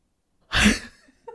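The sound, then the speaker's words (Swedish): A single short, breathy yawn from a person, rising abruptly and trailing off, heard alone in quiet. “Sitter här och gäspar ditt as! Men jag har varit vaken tidigt idag.”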